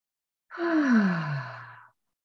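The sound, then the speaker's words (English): Deep breath out through the mouth during a guided centering exercise, heard as one voiced sighing exhale of under two seconds with a low tone that slides steadily downward in pitch. “take a deep breath in and out through the mouth. Let's do that again.”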